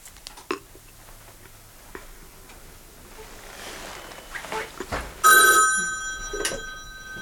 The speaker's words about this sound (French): Ça va sonner, il va appeler. Il va appeler.